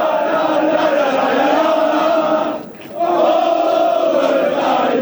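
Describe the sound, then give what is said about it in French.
Party activists cheer and acclaim their leader's arrival at the Republicans' headquarters in Paris, a loud, sustained crowd of voices that briefly dips near the middle before swelling again. “À son arrivée au siège des Républicains, Bruno Retailleau est acclamé par les militants.”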